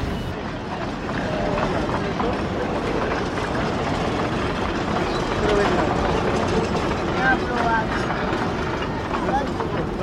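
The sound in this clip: A train of wagons carrying sugar cane passes with a dense, steady rumbling roar and faint clicking clatter, holding an even loudness throughout.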